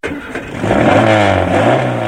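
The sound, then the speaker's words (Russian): A car engine, forced into life by pressing the accelerator and tugging a throttle cable from the dashboard, rumbles briefly at first. It then bursts into a loud, sustained revving roar that holds steady. “Наконец машина, видимо не вынеся пыток, взревела, перекрыв пищание приемника.”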